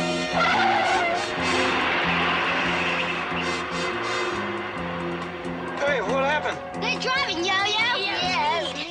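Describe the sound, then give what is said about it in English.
Tires skid and squeal as a speeding bus chases a car, with a loud, steady engine roar giving way to sharp, wavering squeals in the later part. “This bus can really move.”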